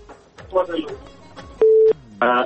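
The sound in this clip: A telephone is dialed for a call: two short, steady electronic tones, the second fuller and richer, come after a stretch of speech.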